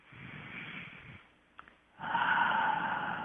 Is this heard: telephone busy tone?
no